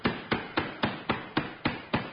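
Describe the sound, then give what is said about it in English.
A cricket bat strikes someone's head in eight evenly spaced dull thwacks. Each blow has a sharp onset and a short decaying tail, in a steady rhythm with no voices. “You can stop hitting me head with that cricket bat now.”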